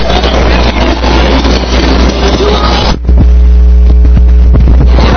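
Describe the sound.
A fire truck pumper engine drones loudly and steadily during a hose water test, a dense low rumble with hissing noise that shifts abruptly midway into a steadier tonal hum with distinct pitched lines.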